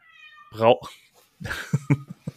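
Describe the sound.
A cat meows once with a loud, drawn-out rising and falling cry, followed by a stretch of talk.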